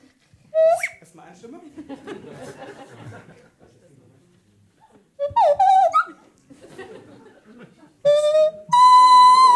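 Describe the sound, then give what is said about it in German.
A flute plays a German toast drinking song in short, bright, high tonal phrases, alternating with stretches of chatter and laughter, then ending on sustained, loud held notes. “So, demnach versuche ich jetzt ein letztes Mal für dieses Jahr ein Prosit auf dieser Flöte zu spielen und ihr singt schön mit.”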